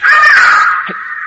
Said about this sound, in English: What was that? Bird.